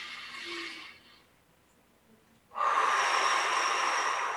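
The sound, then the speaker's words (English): Quick, deep breaths are taken during a guided breathing exercise: a soft breathy rush of air, a pause, then a second, louder and longer inhalation of rushing air. “Let's do three quick deep breaths to close out our practice today. So inhale. One more time.”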